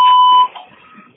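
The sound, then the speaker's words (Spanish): A single steady electronic voicemail beep tone, clear and loud for about half a second, then cuts to faint low background noise. “Usted puede dejar un mensaje después del tono.”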